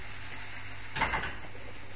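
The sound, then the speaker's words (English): Potatoes sizzling in a pan with stock: a faint, continuous frying hiss with one brief louder crackling burst near the middle, with no talk over it. “Cooking a bit quickly. Oh, more stock. Oh, a bit of sizzling.”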